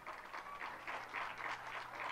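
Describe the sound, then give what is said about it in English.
A quiet audience claps a mountain-music band onto the stage. The applause is faint and soft, with gentle swells of many hands clapping together. “Clap them onto the stage, will you?”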